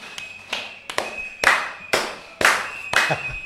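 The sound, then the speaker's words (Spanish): Neighbours bang pots and clap in a street protest against rate hikes, making loud, sharp strikes in a steady rhythm about every half second, with a clattering metallic edge. “me parece que van a pasar los caceroleros, capaz que se escucha. Ahí van los vecinos en el ruidazo.”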